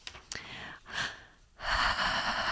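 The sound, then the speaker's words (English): A deep breath is drawn and let out: a few breathy, airy rushes, ending in a longer, louder exhale, with no words spoken. “I had to take a deep breath because I'm a little bit off the rails.”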